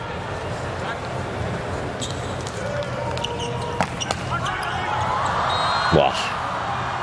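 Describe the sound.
Volleyball serve scoring an ace during a match: a few sharp ball impacts ring out over continuous crowd noise, while a commentator talks throughout.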